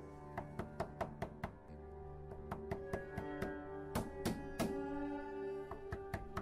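Pounding on a door locked from the inside at a small single-storey house: many sharp knocks in quick bursts with short pauses between, over a steady tonal background hum.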